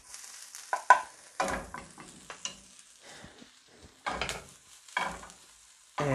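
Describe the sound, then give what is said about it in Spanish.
Onion cooking in a pan, with a faint sizzle under several sharp scraping strokes that come in irregular bursts as the pieces are stirred. “¿Será porque se está cocinando la cebolla?”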